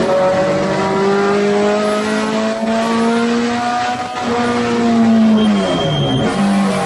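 A race car engine revving up to 8,000 rpm in third gear through a corner, a loud, continuous, buzzing roar whose pitch climbs gradually, with a brief drop near the end.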